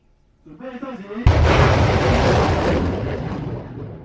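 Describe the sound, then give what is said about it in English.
A U.S.-supplied HIMARS rocket system test firing on Taiwan's west coast: after a brief voice, a sudden loud blast gives way to a broad, sustained rushing roar that slowly fades. “Taiwan test fired a U.S.-supplied rocket system, the HIMARS system, on its west coast facing mainland China.”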